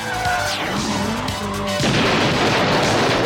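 A comedy sound effect of a missile fired from a cruiser: whining, sliding tones give way to a sudden loud rushing blast that holds steady to the end.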